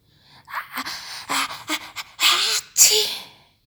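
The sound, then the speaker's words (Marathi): A voice imitates a grandmother with a bad cold blowing her nose into a soft old sari: several breathy, snorting bursts of air in quick succession, fairly loud. “आपलं नाक मऊ मऊ जुन्या मुंडूत म्हणजे जुन्या साडीत शिंकरलं”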